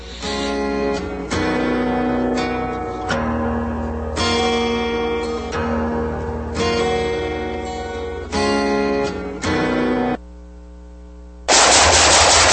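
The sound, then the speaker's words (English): Gunfire from a shooting session rings out in loud bursts of rapid automatic fire. Many sustained rattling volleys are separated by short pauses, with no voices. “Nice shooting.”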